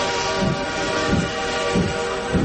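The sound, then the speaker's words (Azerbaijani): Sound effect of a departing train: a steady rumbling roar with a few heavy, low chugging beats at regular intervals. “Diqqət, diqqət, seçki qatarı 101.7 FM stansiyasından yola düşür.”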